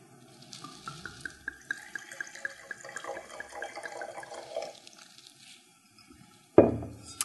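Wine is poured into a glass for a tasting of a barrel- and bottle-aged Ribera del Duero red, a gurgling stream whose ringing tone climbs as the glass fills, then stops, followed by a sharp knock near the end.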